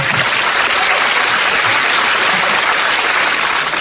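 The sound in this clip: Loud, continuous applause from an audience, a dense and even wash of clapping holding steady throughout with no pauses.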